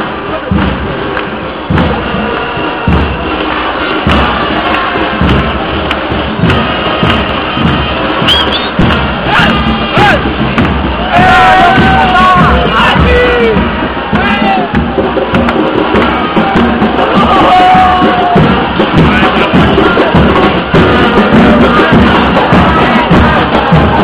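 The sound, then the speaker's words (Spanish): A crowd makes a loud, dense, continuous din at a street march calling for legal marijuana cultivation. Steady thumping and bursts of cheering carry through the mass of voices for the whole stretch. “Una nueva manifestación para que se legalice el cultivo de marihuana. Así suena la marcha de más buena onda del mundo.”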